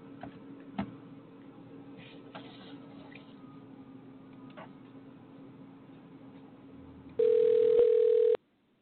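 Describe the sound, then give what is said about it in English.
A telephone dial tone cuts in loud and steady while a call is being placed. Before it, the line hums faintly with a few soft clicks. The tone lasts about a second and stops abruptly. “Okay, hang up, and I'll try calling you at the number you're calling from.”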